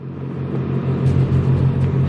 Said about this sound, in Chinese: 起动，点火，加速